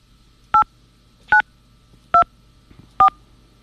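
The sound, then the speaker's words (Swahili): Telephone keypad tones sound as a password and the pound key are entered: four short, clean electronic beeps, evenly spaced and alone against a faint background hum. “Please enter your password followed by the pound key.”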